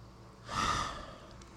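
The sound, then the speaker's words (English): A single deep breath taken as a grounding exercise, a soft, airy rush of air that swells and then fades over about a second, with no talking. “Two deep grounding breaths in the gut. Fill the chest. Let it all go. One more.”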